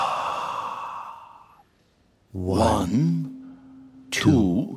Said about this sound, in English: Let's breathe slowly in through our noses. And slowly breathe out.